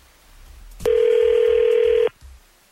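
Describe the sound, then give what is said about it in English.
A single steady electronic ringback tone from an outgoing telephone call sounds for about a second, clear and alone with no talk. “with your permission, we're going to call Austin and see what's up”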